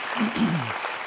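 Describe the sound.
A short burst of audience applause at a church service, many hands clapping briefly, with a voice speaking over the first half.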